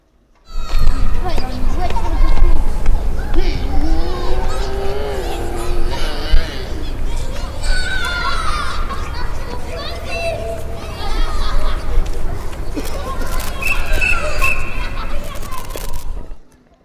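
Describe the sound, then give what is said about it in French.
Children playing, with many young voices shouting, calling and chattering in a steady, lively babble that carries through the whole clip without a break. “Vous avez entendu le son? C'est des enfants qui jouent?”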